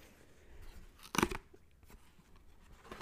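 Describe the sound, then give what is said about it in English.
Crisp tearing of a paper envelope being ripped open: a single short, crunchy burst stands out against quiet background rustling, with a faint rustle following near the end. “All right, we're going to open the envelope.”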